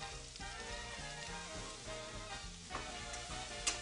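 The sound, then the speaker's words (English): Celery and butter sizzle in a pan with a faint, steady crackling hiss, broken by a couple of sharper pops near the end, with no talk. “So right from the beginning, we're going to throw our celery into there, and we're going to add some butter as well.”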